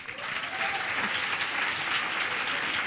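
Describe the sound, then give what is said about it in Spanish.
An audience gives a strong round of applause at a conference session before the coffee break. The clapping is dense and sustained, rising quickly and staying loud and even. “Vamos a pedir un fuerte aplauso”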